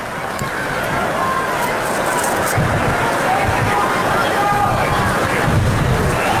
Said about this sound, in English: You can hear the wind buffeting against our microphones down on the field.